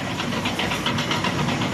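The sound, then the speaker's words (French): Engine rumble of a tractor and a heavy truck passing by during wildfire firefighting operations, a loud, steady, dense roar that fills the whole clip without pause. “Voilà, là c'est un tracteur qui passe sous notre nez. Un deuxième poids lourd là qui passe.”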